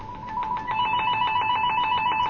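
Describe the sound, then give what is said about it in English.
A telephone bell rings in a radio studio, a steady, rapid trilling that stays unbroken for the whole stretch and keeps an even loudness. “Once in a while, I forget to turn that thing off, and you'll hear it ring when we're on the air. And it sounds like this.”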